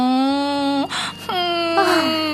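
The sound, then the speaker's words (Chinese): A young boy cries in a loud, drawn-out wail, with sustained voiced tones broken by short catches and brief gaps. “男孩子也会哭鼻子吗？羞羞脸。”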